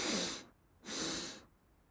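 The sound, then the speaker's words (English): Breathing exercise built on a double inhale through the nose and a single exhale through the mouth: two airy, breathy rushes separated by a short pause, clear and close with no talk. “The two inhales through the nose, one exhale out through the mouth.”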